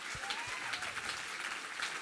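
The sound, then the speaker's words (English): Audience applause in a hall, faint and even, with a constant patter of many hands clapping and no break. “So could you give them a hand? They're amazing.”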